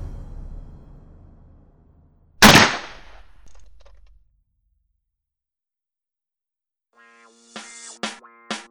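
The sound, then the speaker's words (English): A video game gunshot: one loud, sharp blast with a ringing tail that decays over about two seconds, then silence, then a few brief, sharp, ringing bursts in quick succession. “You look behind one of these shirts and you see someone who steps out and he shoots you in the face.”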